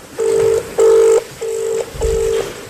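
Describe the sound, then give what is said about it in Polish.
Telephone line tones from a call that goes unanswered: four short, evenly spaced steady beeps at a single pitch, clear and loud, with brief silences between them. “Niestety, szanowni państwo, nikt nie podnosi telefonu.”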